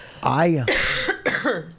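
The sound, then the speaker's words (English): Harsh, voiced coughing comes in a few rough bursts, each with a strained, throaty tone, close together and fairly loud. “Because I'm going to start coughing like crazy.”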